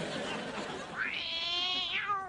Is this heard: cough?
no